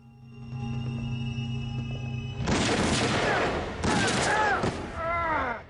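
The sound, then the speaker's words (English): Gunshots in a dark warehouse: a few loud, crackling blasts, each trailing off with whistling, ringing tones, following a low steady hum. “Logan steps out and shoots Damon, who falls to his knees.”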